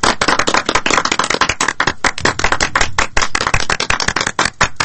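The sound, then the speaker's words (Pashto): Loud, fast hand clapping from several people, a dense run of sharp slaps with no pauses and no voices. “لاسونه لږ ورو پړه کوئ چې شاوخوا خلک یې وانه وري.”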